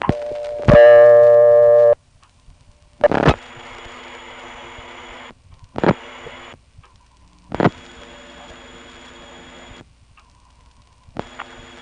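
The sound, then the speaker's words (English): Telephone call signalling over a Type 2 trunk line on a call to Kieseltown, routed through Harrisonburg: a loud harmonic tone about a second long, then a few sharp clicks separated by stretches of faint steady tone and near silence. “Here's a call to 269 Kieseltown. The trunk to Harrisonburg is Type 2, and I really can't tell what the trunk from Harrisonburg to Kieseltown is.”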